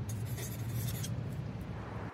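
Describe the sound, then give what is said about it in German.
A pen scratches on paper as someone writes a short note. The sound is faint and soft, with a few scratchy strokes early on, then a quieter, even rustle. “Ich schreibe auch Hi.”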